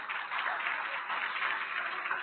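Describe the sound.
A church audience applauds during a service to welcome its livestream viewers, giving continuous, dense clapping that sounds somewhat muffled and steady, with no voices over it.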